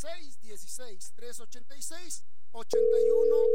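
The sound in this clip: A steady, unbroken telephone tone on a call that fails to connect. It sounds right after a stretch of talking and holds at an even level to the end.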